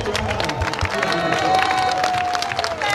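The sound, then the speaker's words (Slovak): Spectators cheer and clap for small child runners at the finish of a short race for blind and visually impaired children, a steady mix of applause, shouting voices and crowd noise that holds the whole time. “Aj takto diváci povzbudzovali malých bežcov. Hop, hop, hop, ideš, poď. A potom aj vítali v cieli.”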